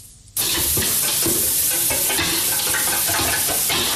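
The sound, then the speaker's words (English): Fish eggs sizzle loudly in a frying pan as teenage boys cook their evening meal in an old house on a side street in Mae Sot. The dense, steady frying starts abruptly after a short quiet moment, with stirring and scraping sounds throughout. “In an old house down a side street in Mae Sot, a group of teenage boys cook their evening meal together. What are you cooking? Fish eggs.”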